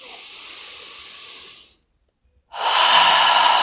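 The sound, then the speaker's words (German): Deep, slow breathing: a long airy breath, a short silent pause, then a second, louder and fuller breath that runs to the end. “Und atme die Anspannung aus, ganz tief aus. Und noch einmal einatmen, nimm die Schulter mit hoch.”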